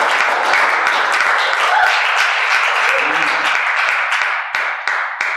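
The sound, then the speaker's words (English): An audience at Takeover Church in Grand Rapids applauding and cheering, a dense, loud wash of clapping with voices mixed in that thins toward the end into a few separate, scattered claps. “would you guys make some noise for him as he drops the word?”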